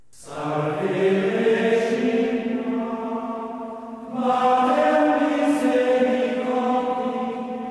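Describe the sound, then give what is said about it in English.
Medieval Gregorian chant for vespers: voices sing a slow, sustained melodic line in two long phrases, the second entering after a short breath, resonant and even in loudness. “Much of Vesper music is based on medieval Gregorian chant and sounds like this.”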